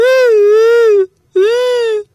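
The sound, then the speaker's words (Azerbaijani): Elephant crying loudly in a story, imitated by a human voice as two long, sustained, sobbing wails at a steady pitch, separated by a brief silence. “Fil hönkür-hönkür ağladı.”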